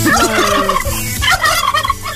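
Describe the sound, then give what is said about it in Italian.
A person imitates a turkey gobbling with loud, rapid warbling bursts that run without pause for about two seconds, with no other talk. “Ma che è il tacchino?”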